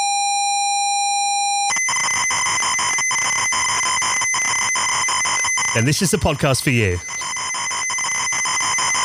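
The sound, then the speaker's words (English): A ZX Spectrum computer loading a game from cassette tape gives a steady pitched tone, then a loud, harsh buzzing data screech with regular ticks. A voice speaks briefly over the screech. “That is the sound of the beloved ZX Spectrum loading a game.”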